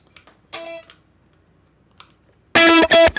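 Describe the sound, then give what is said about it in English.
Electric guitar through a heavy distortion effect: one short, buzzing, harmonic-rich burst, then a near-silent gap, then a few loud, clipped, gritty stabs at the end. “I might take the distortion off of this. Yeah, too much. Yeah, lower the gain,”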